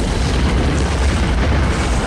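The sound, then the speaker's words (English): Deep, continuous roar of a huge fireball explosion as jettisoned twin jet fuel tanks hit the snowy ground. A loud, dense, steady rumble holds without a break throughout. “As the tanks hit ground, a huge fireball expands from the impact.”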